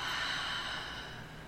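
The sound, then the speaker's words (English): A deep breath drawn in and let out as one continuous airy hiss, steady and fairly soft, easing slightly toward the end. “and then exhale out. Another one, deep breath in and out.”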